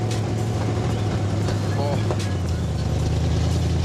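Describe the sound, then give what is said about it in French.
A road-legal car's engine and exhaust, fitted with very short school-built exhaust manifolds, rumble in a steady low drone while the car is driven on school grounds, holding constant loudness throughout. “le bruit est excellent. Vous avez travaillé les échappements en plus pour avoir un son pareil.”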